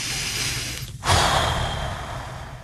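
A deep, controlled abdominal breath, demonstrated with a brief catch and then a long, airy breath that slowly fades over steady background noise, with no talk.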